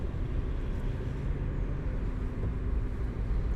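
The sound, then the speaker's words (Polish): A car driving on a road at raised speed during a driving exam, in a 70 limit zone, gives a steady, broad low rumble of engine and road noise with no voices. “Obecnie wykonujemy też jedno z zadań egzaminacyjnych, czyli jazda drogami z podwyższoną prędkością.”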